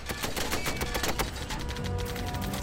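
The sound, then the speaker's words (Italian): Dense, loud gunfire as soldiers open up with machine guns and rifles against the first tanks in battle, a continuous crackle of rapid overlapping shots with no break and no voices. “Iniziarono a sparare anche loro con mitragliatrici e fucili.”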